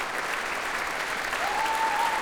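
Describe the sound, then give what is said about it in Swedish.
Concert audience in Berwaldhallen applauding the Swedish Radio Symphony Orchestra, a dense, continuous ovation of many hands that holds steady and grows slightly louder toward the end. “allt så som applådrundan går runt så ställer sig faktiskt fler och fler upp här i Berwaldhallen och applåderar Sveriges Radios symfoniorkester”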